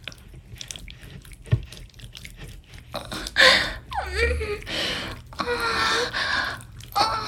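Wet, squishing genital sounds from sexual activity come as irregular soft squelches and slaps, interspersed with breathy gasping vocalisations.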